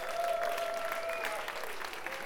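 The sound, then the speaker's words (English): Audience applause from a respectful crowd at a live event at the Mill House: dense, steady clapping that stays loud throughout and sits alone without talk. “So you guys really give yourself a hand.”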